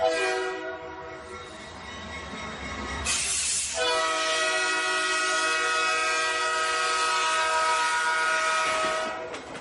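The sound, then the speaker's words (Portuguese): Train horn from a locomotive running on the Sena railway line in Mozambique: a loud, sustained, chord-like blast that breaks off briefly, then sounds again steadily over the rumble of the train. “A nossa viagem começa na estação ferroviária de Moatize. À medida que a locomotiva avança pelos trilhos da linha férrea de Sena, transportando passageiros e mercadorias entre diferentes pontos do país”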